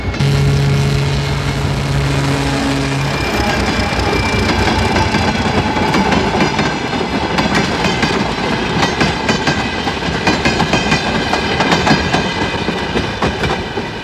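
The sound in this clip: A train passes a platform, a loud, steady rumble of wagons with a continuous clickety-clack of wheels over rail joints throughout, no voices.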